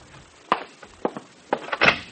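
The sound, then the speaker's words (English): Knocking at the door of a room, a few sharp raps in an uneven pattern, moderately loud against a quiet background. “I left my number and was on the point of going out to dinner when there was a knock at the door of my room.”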